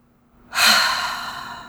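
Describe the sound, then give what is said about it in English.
One deep breath taken during a guided tapping exercise, starting abruptly as a loud, airy rush that holds and slowly fades. Nobody speaks. “Take a deep breath.”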